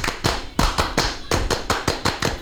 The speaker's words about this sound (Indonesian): Ya, tepuk pramuka. Baik kakak ulang, tepuk pramuka.